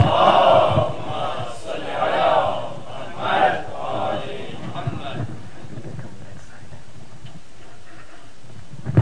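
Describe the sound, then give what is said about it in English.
Loud salawat from an audience welcoming a guest rabbi before an evening talk: massed voices chant together in a few strong surges, then settle into a quieter, scattered murmur for the last few seconds. “So please welcome Honorable Rabbi Weiss with a loud salawat.”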